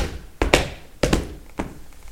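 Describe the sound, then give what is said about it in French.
Feet stamp on a floor, giving a few dull, low thumps spaced unevenly, some of them coming in quick pairs. “Quand je suis réveillée, je tape avec mes pieds.”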